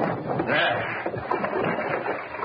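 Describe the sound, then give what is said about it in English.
Water rushing through an opened mill sluice to turn an old mill wheel makes a steady, dense rushing roar that holds throughout with only slight surges. “I think it opens the sluice, starts the mill wheel turning. It does? Then let's try it. See if it still works.”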